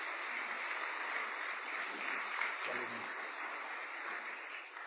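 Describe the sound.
A church audience at Riverview Church applauds a guest speaker, producing a steady, even wash of clapping that holds at a moderate level throughout and tapers slightly at the end.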